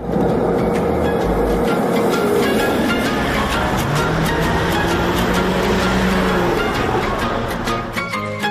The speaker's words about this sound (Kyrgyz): Эмне менен барасыз? Маршрутка. Маршрутка менен. Кеттик жүрүңүз.